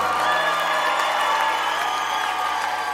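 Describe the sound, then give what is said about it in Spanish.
Audience applause mixed with cheering crowd noise, a dense, steady wash of clapping and voices that stays loud for the whole three seconds. “Denle más fuerte ese aplauso.”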